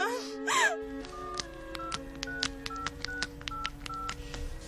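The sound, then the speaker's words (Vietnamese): A telephone keypad dials an ambulance during an emergency with an injured, bleeding person: a pained moaning voice comes first, then a rapid run of many short, bright touch-tone beeps in a fairly steady rhythm. “Thôi được rồi, phải gọi cấp cứu ngay.”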